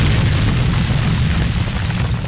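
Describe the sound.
A loud, deep boom sound effect used as a drop, a dense rumbling roar that stays heavy and sustained throughout with no talk over it.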